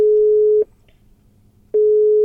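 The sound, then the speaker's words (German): A ringback tone plays on an outgoing telephone call: a steady, mid-pitched electronic tone stops, pauses for about a second, then sounds again. The line is quiet between the tones, and no one speaks. “Du, pass auf, lass uns doch den Daniel anrufen.”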